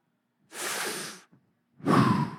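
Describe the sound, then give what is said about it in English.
A preacher draws two audible breaths with no talk, a long airy one and then, after a short pause, a louder and heavier rush of air. “Where'd that air come from? Where'd that air come from? Who made that air that I just breathed?”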